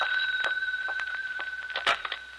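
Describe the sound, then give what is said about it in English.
A telephone rings inside a house with a steady, bright electronic bell tone that holds through the whole clip. A few faint clicks and knocks sit under it, and no one speaks. “as I walked into the house, the phone rang.”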